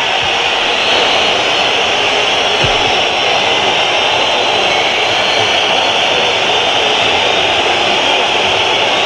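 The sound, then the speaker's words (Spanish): A football stadium crowd at San Mamés whistles in protest at the referee, a dense, loud, continuous wash of shrill whistling and roar that stays steady throughout. “Y esta es la pitada de San Mamés para César Soto Grado.”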